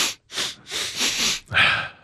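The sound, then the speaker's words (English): A voice imitates a double sniff: a few sharp, breathy sniffing bursts in quick succession, loud and alone with no talk. “The sniff, the double sniff.”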